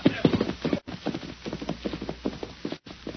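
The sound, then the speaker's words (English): Hooves of a fresh horse clip-clopping as a Pony Express rider sets off on the trail: a quick, steady run of hoof knocks throughout, moderately loud. “Here's your fresh horse. Better hit the trail or the Pony Express will be late.”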